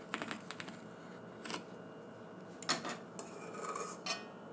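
Faint clinks and scrapes of cutlery slicing a meringue pie: a few light, sharp taps scattered over a soft, steady background, with no talk.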